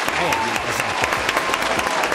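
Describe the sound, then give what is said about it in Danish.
Applause sound effect played in a studio: a dense, continuous wash of many hands clapping, steady and loud throughout the two seconds. “Kan du ikke lige smide sådan en klapsalve på? Jo, det kan jeg let.”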